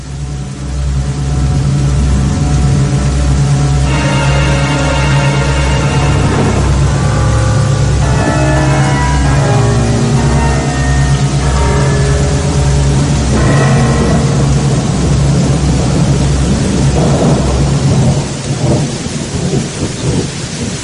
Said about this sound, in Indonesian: Hujan malah semakin besar. Malah bisa dibilang tidak kunjung reda.